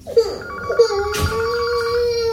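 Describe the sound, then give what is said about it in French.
A telephone ringtone plays a short melodic phrase of a few electronic notes, then settles into a long sustained tone, loud and alone. “réponds au téléphone, s'il te plaît.”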